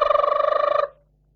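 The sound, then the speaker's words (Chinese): A telephone bell rings in a rapid, loud electric trill of many quick pulses, then cuts off abruptly after less than a second, leaving near silence. “电话铃响。郭燕赶快抄起电话这么一听”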